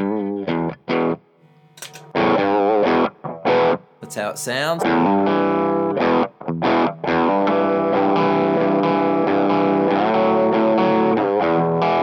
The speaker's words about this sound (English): So let's turn on the AT pedal, the AT, the JHS, that's the red one down here.